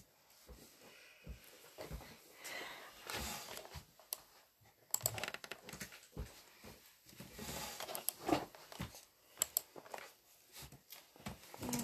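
Typing on a computer keyboard: many quick, irregular key clicks come in bursts with brief pauses, fairly loud and steady throughout, with no talking.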